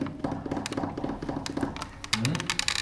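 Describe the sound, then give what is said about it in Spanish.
Fingernails tapping on a door as a recognisable way of announcing oneself, making a rapid, irregular run of light, sharp clicks that fills the whole stretch. “Yo toco la puerta con las uñas, claro, hay gente que hace así.”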